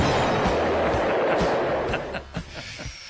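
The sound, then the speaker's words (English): A bomb explosion sound effect: a dense, roaring blast of noise holds for a moment, then breaks into scattered crackles and fades out. “You have a bomb? Okay. Hang on, I gotta find a non-lethal one. We usually try not to use it.”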